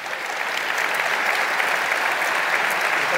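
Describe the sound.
Applause at Deakin Edge in Melbourne welcomes a speaker to a talk on American power in the Middle East. Dense, even clapping builds quickly, then holds steady and loud.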